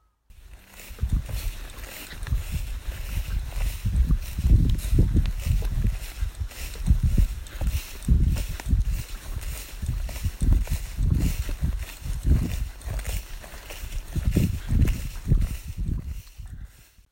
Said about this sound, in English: Left the moorland track now, and I've just been traipsing through quite a few fields of really long grass.